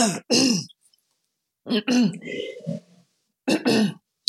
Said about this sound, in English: Well, sorry, go on, get it out. Fog in your throat.